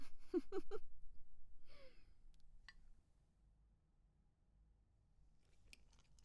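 Crisp crunching bites as someone chews and eats ebogedo: a few quick, loud crunches close together at the start, then chewing fades into near quiet.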